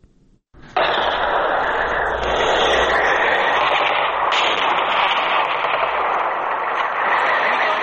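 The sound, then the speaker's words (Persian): Heavy gunfire from clashes between Afghan and Pakistani forces in Barikot, Nari district, Kunar province, Afghanistan, bursts in after a brief spoken word. It roars on as dense, continuous, loud rapid fire with no clear pauses. “این صدای که درگیری ها در ساحل بریکوت و دو کلمه ولسوالی ناره ولایت کنر است”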